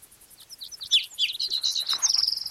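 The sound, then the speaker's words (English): A bird sings a rapid run of high, thin chirps and whistled notes that ends in a fast, buzzy trill, fairly faint and with no voices. “same bird, different song.”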